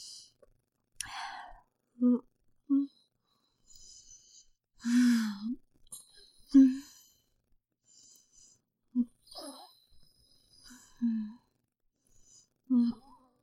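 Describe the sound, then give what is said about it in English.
Heavy breathing through the nose, a series of strained, effortful breaths and sighs, some with a brief voiced tone, repeating many times at irregular intervals with quiet gaps between. “Breathe through my nose, gotta breathe through my nose.”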